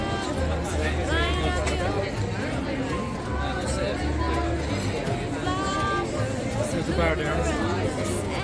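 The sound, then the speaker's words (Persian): Crowd chatter fills a busy shopping street lined with natural leather goods and handmade sandal shops: a dense, steady hubbub of many overlapping voices that holds at an even level throughout. “آخه چه جمعیتی، ما میخوایم بریم هم نمیتونیم.”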